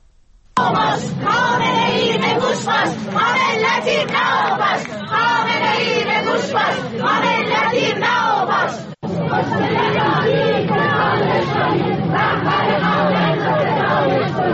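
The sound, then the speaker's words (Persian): Funeral mourners in Sanandaj, Kurdistan, chant protest slogans against Iran's Islamic Republic and its leader. The massed voices are loud and steady, with one brief break partway through before the chanting resumes. “در مراسم خاکسپاری اونها حاضران شعارهای اعتراضی علیه حکومت جمهوری اسلامی و رهبر جمهوری اسلامی ایران سر دادن. الان میتونیم صدای تعدادی از اونها رو بشنویم.”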